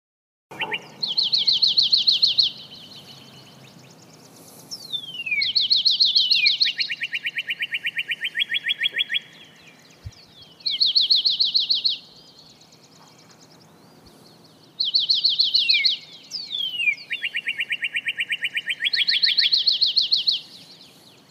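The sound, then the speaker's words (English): Common grackle calling alone: a few repeated phrases of rapid, high, buzzy trills, each often followed by a slightly lower, longer trill, separated by short silences. “Common grackle.”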